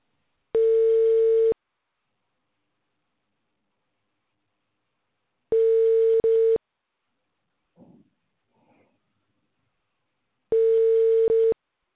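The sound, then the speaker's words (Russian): A telephone ringback tone sounds as a callback call connects to the person being called. Three long steady beeps are evenly spaced with long silences between them, and a few faint brief sounds fall between the second and third. “Поступил обратный звонок через ВКонтакте. Начинаем звонить абоненту. Ожидайте соединения.”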